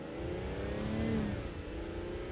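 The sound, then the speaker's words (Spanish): A car accelerating away with a young woman riding on its running board, a steady, loud mid-pitched engine roar with a brief rising whine in the middle and no voices. “La joven hace lo que le ordenan y se sube al estribo del vehículo que inmediatamente acelera.”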